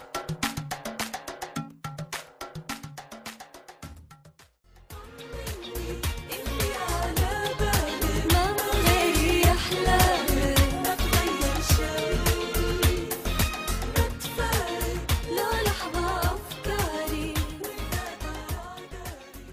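A 2008 Saudi Arabian pop song by a female singer, opening with a sparser passage before a fuller arrangement with a steady, driving beat enters and continues to the end.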